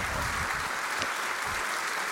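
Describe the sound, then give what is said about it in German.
Steady audience applause welcomes a speaker at a technical conference talk, a dense, even wash of clapping that runs the whole stretch with no voices over it. “Ein Applaus für Ben.”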